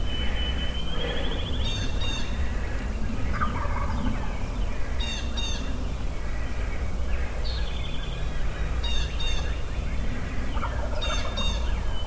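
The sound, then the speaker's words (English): Wild turkeys gobble on an early-March morning, sending out several rattling gobbles at intervals over a steady background hiss, with other bird calls in between. “they are active this morning. Turkeys, first weekend in March, just, I don't know where they go, but they sure as heck weren't here.”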